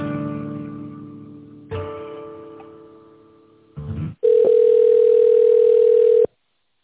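Steady telephone line tone while a call is being transferred, sounding loud and unbroken for about two seconds before cutting off abruptly, with no talk over it.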